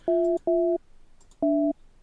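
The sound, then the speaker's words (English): Telephone dialing tones: three steady, clear dual-tone beeps, each about a third of a second long. The first two come close together and the third follows after a short pause, with nothing else heard. “I'm dialing a number here. I can see that. And I hear the noises in the background.”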